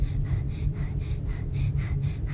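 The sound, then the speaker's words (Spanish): A young woman breathes rapidly in and out during a medical test, eyes closed, beside monitoring equipment. Quick, rhythmic breathy pulses repeat steadily over a constant low hum. “Respira rápido. Inspira, expira.”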